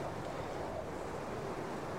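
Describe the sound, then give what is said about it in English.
Wind of a blizzard roars in a video game, a steady, even rush of noise with no breaks and no voices. “It is quite windy and it's not worth staying up for very long.”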